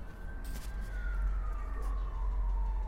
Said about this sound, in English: And now a siren in the distance going down, echoing that sentiment. Up and down, up and down.